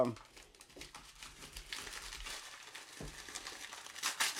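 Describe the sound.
Someone unwraps a package of hunting gear, and the packaging crinkles and rustles in irregular bursts throughout while people talk.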